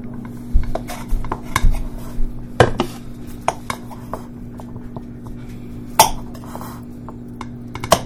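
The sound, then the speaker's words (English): Knife and plate clinks as homemade cookies made with butter, flour, sugar, candy canes and mint extract are cut into smaller pieces, many scattered sharp clicks and taps at uneven intervals. “Let me cut them up into smaller pieces first.”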